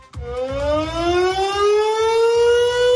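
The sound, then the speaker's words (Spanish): Air raid siren sounding in Otxandio on the 90th anniversary of an aerial bombing: a loud, sustained wail that climbs steadily in pitch, with a low, rhythmic pulsing underneath. “las sirenas acaban de sonar de nuevo en el 90 aniversario del ataque aéreo en el que fallecieron 61 personas”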